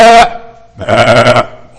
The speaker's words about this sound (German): In alle möglichen Tonarten hat das Geblöke der Schafe sich anhören müssen